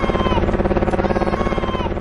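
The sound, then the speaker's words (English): Helicopter rotor chop: a steady, rapid thudding pulse over a droning engine hum, loud and continuous throughout. “Whatever was going on, that helicopter was certainly interested in something over there all of a sudden.”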